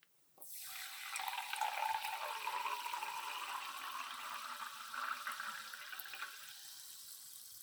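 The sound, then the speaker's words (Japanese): A new drug being poured into a glass: a continuous splashing pour of liquid starts abruptly and runs steadily, with no gaps, until the end. “私がさっき持ってきたグラスに、これからこの新薬を注いでいくから見てて。”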